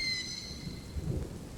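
Light drizzling rain falls with a steady, even hiss, and a low rumbling sits underneath it throughout.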